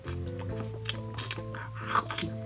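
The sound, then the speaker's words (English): Biting into and chewing a dry, artificially cracker-flavoured food gives a series of crisp crunching bursts over a steady low hum, with the loudest crunch near the end and no voices. “I mean, full-size crackers right there. And there, it's got an artificial cracker taste. And let me tell you, I'm going to take a bite here.”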